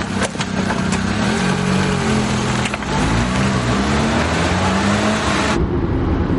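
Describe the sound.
Car engine as a young woman reverses out of a parking space in a film scene: a loud, steady motor rumble with shifting engine tones that runs throughout, then cuts off sharply just before the end.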